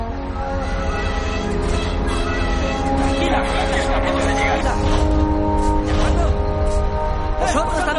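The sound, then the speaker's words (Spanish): A train coming to a stop after a crash involving a car on the tracks: a loud, steady mechanical roar with sustained high tonal whines running through it, continuing without break to the end. “El tren se detiene pasados unos metros.”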